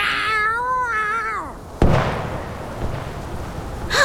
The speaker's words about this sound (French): T'as jamais vu une chatte qui se bat pour sa survie?